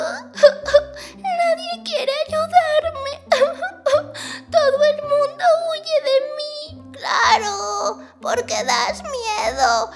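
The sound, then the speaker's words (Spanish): A little mouse character in a children's story cries: a voice performs wavering, high-pitched sobs and whimpers in many short bursts, rising and falling in pitch. “Pero entonces la ratita presumida se puso a llorar.”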